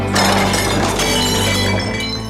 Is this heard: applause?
no